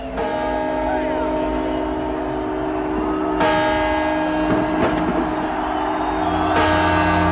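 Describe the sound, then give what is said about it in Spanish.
Bells ring steadily like an alarm, a sustained, layered metallic tone held throughout, with a brief sharper burst near the middle and a brighter swell at the end. “¡Qué campanas más parecidas a la alarma, ¿no? ¿Oyes? ¡Es la alarma!”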